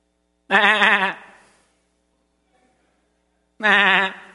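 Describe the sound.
A sheep bleats twice, each call a loud, wavering cry of about half a second, separated by a few seconds of silence.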